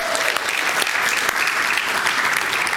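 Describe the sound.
Church audience applauding to celebrate a new convert. Dense, even applause holds at a steady level throughout, with no break.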